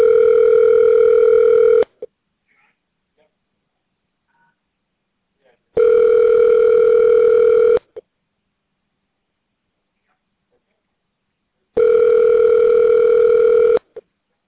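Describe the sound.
Telephone ringback tone heard while a call is transferred: three long, steady buzzing rings of about two seconds each, separated by roughly four seconds of silence.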